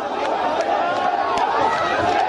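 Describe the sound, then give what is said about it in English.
Protesters in Tahrir Square, Egypt, rallying against their ousted president, a dense, continuous mass of raised crowd voices with scattered louder shouts. “From afar, Tahrir Square appears almost festive as protesters chant against their president, who was overthrown by the Egyptian military last week.”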